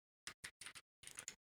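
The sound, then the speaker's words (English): Computer keyboard typing, faint and alone: four separate key clicks at a steady pace, then a quicker cluster of several more keystrokes. “Definitely not Googling that keyboard sound you're hearing there.”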